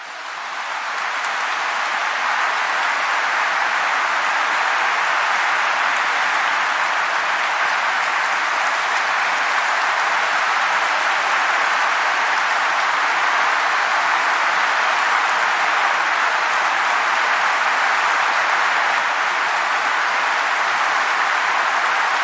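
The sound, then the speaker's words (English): Audience and politicians standing and clapping, a dense, sustained wash of applause from a large crowd that holds at an even, loud level throughout, with no cheering or voices standing out. “Yeah, so they're standing and cheering and clapping. Not cheering, clapping. And at the very end, the politicians rose to their feet and clapped as well.”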